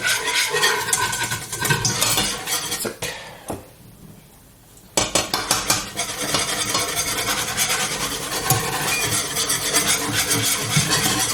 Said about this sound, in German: So, und immer schön rühren, damit das nicht klumpt nachher.